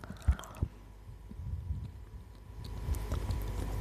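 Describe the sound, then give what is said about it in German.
Chewing a piece of chocolate makes quiet, moist, squishy mouth sounds with a couple of sharper clicks early on, and no one talks. “Ich esse ein Stück Schokolade. Derweil. Ich bediene ich mal mit einem halben Stück.”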